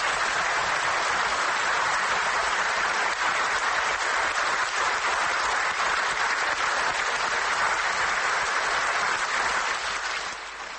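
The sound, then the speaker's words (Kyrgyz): Thunderous applause rises from delegates at a Kyrgyz party congress. Dense, steady clapping runs unbroken for about ten seconds, then tapers slightly at the end. “Мурат Жетимишбаевдин сунушу делегаттардын дүркүрөгөн кол чабуусу менен коштолду.”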